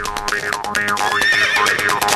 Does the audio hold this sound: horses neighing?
yes